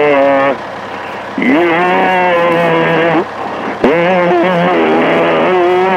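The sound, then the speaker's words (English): A Humvee's engine rumbles as it backs up slowly, a loud, steady drone whose pitch dips and climbs in a few surges as the throttle eases on and off. “Now, honey, I want you to do it real easy. Okay, just back it right over. Back it over. Back it over.”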